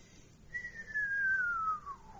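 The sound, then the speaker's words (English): A radio whistler set off by a lightning strike in New Zealand: one pure whistling note gliding smoothly and steadily downward in pitch over a faint hiss. “It's a descending whistling note. Starts with the high frequencies, ends up with the low frequencies. And that's caused by a lightning strike in New Zealand.”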